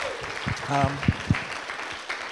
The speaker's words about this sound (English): Can we give our team a round of applause and Rasheen?